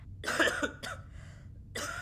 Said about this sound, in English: Have you got a cough too?